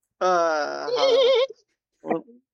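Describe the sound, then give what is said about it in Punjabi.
A human voice imitates a mare neighing: a sustained, high, quavering whinny lasting about a second that ends in a shaky warble, then a short breathy snort. “ਘੋੜੀ ਹਿਣਕਦੀ। ਹਾਂ, ਖਾਲੀ ਘੋੜੀ ਹਿਣਕਦੀ।”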